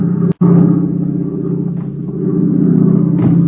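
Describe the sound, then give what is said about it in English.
A faulty aircraft engine drones loud and low, cutting out once for a split second near the start before the rumbling hum picks back up and carries on steadily. “Hey, did you hear that? Sounds like a bum motor.”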